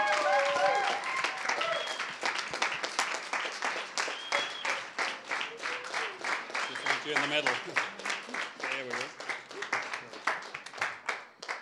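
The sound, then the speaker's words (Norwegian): A church audience applauds and cheers to welcome guests from America, with dense, continuous clapping and scattered whoops and shouts that gradually thin out toward the end. “Så gi en skikkelig god applaus og velkomst nå til våre amerikanere. Gjerne ta en skikkelig jubel.”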